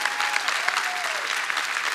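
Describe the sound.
An audience at a church service gives a polite round of applause, steady dense clapping that holds at an even, moderate level throughout.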